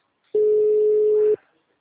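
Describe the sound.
A telephone busy tone after a dropped call sounds as one steady, mid-pitched electronic beep lasting about a second. It starts and stops abruptly and is heard alone.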